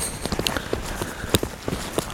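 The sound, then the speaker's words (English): Footsteps on a rocky, wet, slippery hiking trail, a run of crunching, knocking steps in a fairly steady walking rhythm, with a few sharper scrapes among them. “So I'm now walking on the trail I've just photographed, a rocky, wet and slippery trail”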